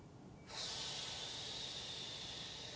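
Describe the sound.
A long, slow exhale during a guided breathing exercise: a soft, airy hiss starts abruptly after a brief quiet moment and holds steadily, fading only slightly, with no voice over it.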